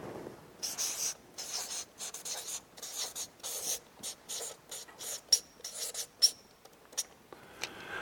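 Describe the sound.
Writing on a board: many quick scratchy strokes in short bursts, with a couple of sharper taps in between, moderately loud and without any voices.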